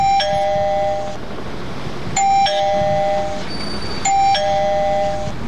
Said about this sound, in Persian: باش که تک تک کنم دروازه را. اوی راستی این زنگ دارن.